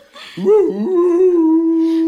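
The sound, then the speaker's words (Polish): A dog howls behind a door: one loud, long vocal tone that wavers briefly after a short quiet start, then holds a steady, even pitch to the end with no other sound. “Kto tam puka? Kto tam tak szczeka za drzwiami?”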